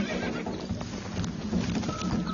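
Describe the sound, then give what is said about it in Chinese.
An injured foal with cuts, tears and swollen left hip and knees whinnies and runs off, the neigh and hoofbeats fairly quiet within a dense, noisy background. “还没等鲍勃再靠近一点，这匹受伤的小马驹就吓得跑掉了”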